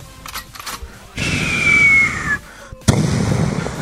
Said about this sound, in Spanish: Un arma. Que es una bazooka. Ya empezó a tirar los tiros. Cuidado.